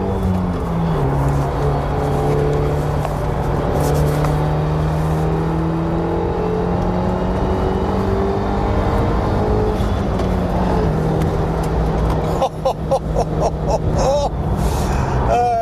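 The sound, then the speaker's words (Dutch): A 300 hp Trophy R sports car weighing about 1300 kg, on special Bridgestone tyres, is driven hard. Its engine drones loudly and continuously, with pitch climbing and shifting as it accelerates through gears. “Nou, de Trophy R wil dan ook niets liever dan lekker scheuren.”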